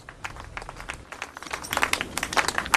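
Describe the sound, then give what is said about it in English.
Applause from a crowd, starting as scattered claps and growing denser and louder toward the end. “Applause.”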